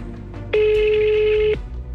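A telephone rings with a single steady electronic tone lasting about a second. It is loud and clear against quieter background noise.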